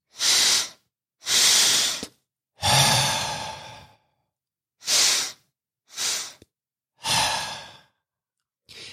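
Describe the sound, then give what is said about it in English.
Cyclic sighing breath: two quick inhales through the nose, then a long, hissing exhale through the mouth. The cycle runs twice, with short silent gaps between breaths. “you're going to take 2 breaths in through your nose And then you're going to blow out through your mouth. So it's going to sound something like this.”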